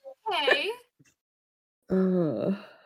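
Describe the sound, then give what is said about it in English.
A voice imitates a sobbing character's little cry during a tabletop role-playing game: two short, tonal, whimpering wails separated by a brief silence, the second held slightly longer and wavering. “Algernon has his little cry.”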